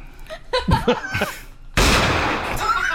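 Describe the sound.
A gunshot in a video game: a sudden loud, noisy blast with a lingering rough tail that follows a short stretch of voices talking and chuckling.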